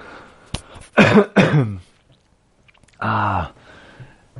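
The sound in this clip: A person has a coughing fit: a sharp single cough, then two harsh, throaty bursts in quick succession, a pause, and one more long, rasping cough.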